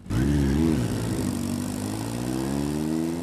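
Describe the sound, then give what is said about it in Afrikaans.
A motorcycle engine runs loudly and steadily, its rumbling tone wavering briefly near the start, then holding a smooth drone that creeps slightly upward in pitch. “Wil jy nie maar jou motorfiets afskakel nie, dan praat ons in die huis.”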